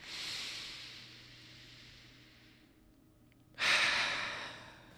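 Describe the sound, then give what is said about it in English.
A deep breath drawn in through the nose during a guided breathing exercise, a long soft airy hiss that slowly fades. After a brief pause comes a louder, fuller exhale out through the mouth. “a deep breath through the nose, expanding the belly into the chest, all the way up, and then exhale out through the mouth”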